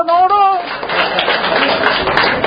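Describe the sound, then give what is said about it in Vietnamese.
An audience clapping hands at a church healing service, a dense, steady burst of applause that follows a brief voice at the start. “Vỗ tay này, nó khỏi rồi nè”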